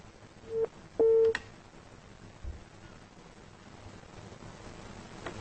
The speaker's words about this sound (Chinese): 喂，喂，电话挂断了啊